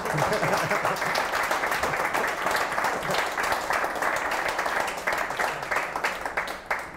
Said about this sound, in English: should we take a vote on that, whether it's going all right? Show of hands or claps.